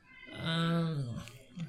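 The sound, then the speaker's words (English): A neighborhood cat meows once, a drawn-out, fairly faint tonal cry under a second long that swells and then fades, followed by a short, softer sound. “You can hear the meowing in the background.”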